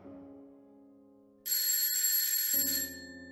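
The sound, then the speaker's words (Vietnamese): An alarm clock rings with a bright, continuous metallic jangle that cuts in over a low sustained tone, holds steady for about a second and a half, then stops while lower tones carry on. “Tiếng chuông báo thức khiến cho tôi tỉnh giấc.”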